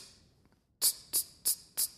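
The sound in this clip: Vocal imitation of a hi-hat cymbal in beatboxing, four short, sharp, bright hissing 'ts' bursts, evenly spaced and loud against near silence.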